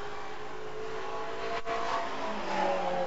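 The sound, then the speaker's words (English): A Capri race car drones past on the track during a six-hour endurance race at Snetterton in 2011. Its engine note stays steady and continuous, briefly dipping midway before swelling again. “There's the Capri, and that is a 2.36.1.”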